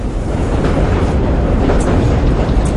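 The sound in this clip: A subway train rides along with a loud, continuous rumbling roar and faint rattling of the cars. No voices.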